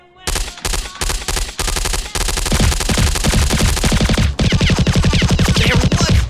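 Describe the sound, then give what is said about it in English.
Rapid gunfire from guns shooting at oncoming attackers, many loud bursts of automatic fire chattering in quick succession, first in short volleys separated by brief gaps and then merging into a continuous dense barrage. “Shooting away at the people coming at us. Wham, bam! Eat it, man! Blowing their heads off, pow, zap!”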